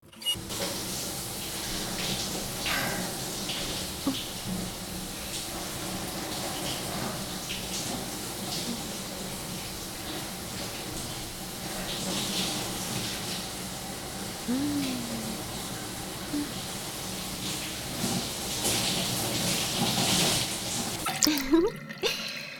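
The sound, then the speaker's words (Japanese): Water running to rinse someone off during washing: a steady splashing, hissing flow with occasional drips, fairly soft throughout, swelling louder just before the end. “さーて、それでは洗い流していきましょうか。”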